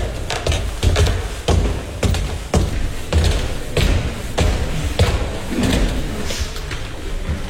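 Footsteps on wooden stairs in a museum. Many heavy, hollow thumps fall in a steady, plodding rhythm, one after another.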